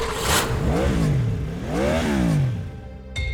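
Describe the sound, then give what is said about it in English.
A Jeep engine revs in two swells, its pitch rising and then falling each time, before a brief abrupt burst at the end. “Have sweet dreams while I rev my Jeep.”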